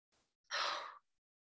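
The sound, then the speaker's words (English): A single deep breath drawn in, a soft airy inhale lasting about half a second, with a faint short breath just before it. “take a very nice deep breath in.”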